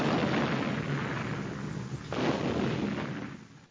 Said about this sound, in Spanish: Los disparos de cañón de la española duraron solo unos minutos y no lastimaron a nadie.